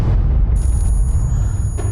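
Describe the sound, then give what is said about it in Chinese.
A hand grenade explosion gives a loud, deep boom that becomes a sustained low roar, with a thin, high ringing tone holding steady above it. “手雷”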